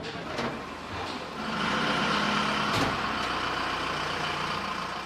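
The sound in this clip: Truck engines start up as a convoy loads for departure. A rough, broad engine rumble swells after a moment and then holds steady and loud, with a sharp knock partway through.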